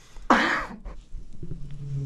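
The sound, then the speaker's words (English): A single sharp, loud cough bursts out and fades quickly, followed by quiet low background sound. “Please keep talking while I cough, because then it points out every time you stop and I cough, it points out my cough.”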